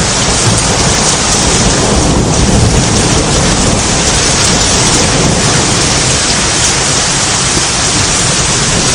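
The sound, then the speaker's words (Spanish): Thunder rumbles low through a heavy downpour over Madrid, the rain a loud, unbroken roar of dense hiss throughout. “Ahí tienen el trueno.”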